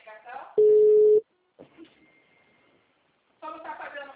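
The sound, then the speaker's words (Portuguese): A single steady telephone tone, loud and about half a second long, sounds after a dropped call, with people talking before and after it. “a ligação caiu”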